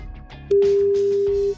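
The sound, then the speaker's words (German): A single steady telephone tone, loud and even, sounds for about one second during a call being placed to Sonthofen in the Allgäu, with faint background sound before and after. “Das ist die Frage, mit der ich jetzt in Sonthofen im Allgäu anrufen werde.”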